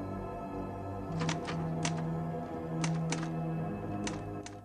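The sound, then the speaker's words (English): Keystrokes on a typewriter: several sharp, faint clacks in irregular bursts over a sustained low musical tone. “She opens a drawer, finds some paper, and inserts a sheet, glancing nervously at the door. She types.”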